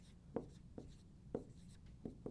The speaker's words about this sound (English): I got to swing it up to write.